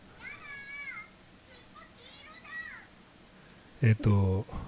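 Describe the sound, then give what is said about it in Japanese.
A cat meows a few times, with high, wavering, drawn-out cries spaced over several seconds, followed by a louder burst of a person speaking at the end. “猫うるさいですね”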